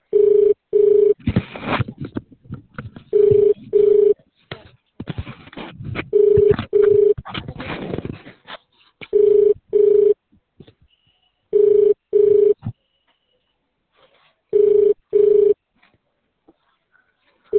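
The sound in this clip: Ringback tone of an unanswered telephone call, a double-pulse tone repeating six times at an even rhythm. Crackling noise fills the gaps in the first half.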